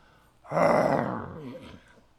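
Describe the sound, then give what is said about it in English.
A person imitates a roar with the voice: one sustained, low, growling roar lasting over a second, loud at first and then fading, with no other sound around it. “I can't do a very good roar.”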